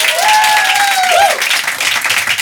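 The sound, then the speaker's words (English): Loud audience applause with cheering, a steady wash of clapping and a single voice letting out a whoop that swoops up and down near the start. “Round of applause for tits right now.”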